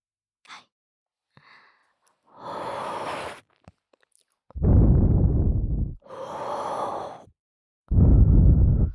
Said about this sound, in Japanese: こいつ吸ってやがるーって思いながら聞いてください。吸ってますんでとっても吸ってます。